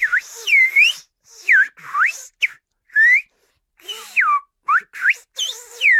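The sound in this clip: Whistled speech carrying a French sentence forms a lively run of many short, loud whistles with gliding, curving pitch contours, separated by brief silent gaps, performed alone.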